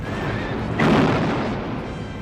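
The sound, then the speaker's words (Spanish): A cannon fires at the Battle of Waterloo as British guns open on charging French cuirassiers. One sudden heavy boom breaks a low steady background and decays into a rough rumbling tail over a second or so. “Los cañones cobran sus primeras presas.”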